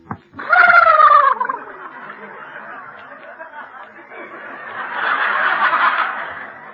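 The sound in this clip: Horse sound effect in a 1941–42 radio comedy western sketch: a short, harmonic whinny with wavering, falling pitch, followed by steady audience laughter that swells toward the end.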